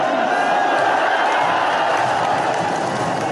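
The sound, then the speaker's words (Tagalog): Crowds cheer and roar at Philippine viewing venues, including Villamor Air Base and the AFP Theater, as Pacquiao floors Thurman in the first round of a boxing match. The loud, dense wall of shouting and clapping holds steady throughout. “dumagundong ang mga venue dahil sa hiyawan ng mga manonood.”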